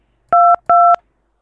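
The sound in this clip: Telephone keypad dialing tones: two short, steady two-pitch beeps, each about a quarter second long, with a brief gap between them and then silence.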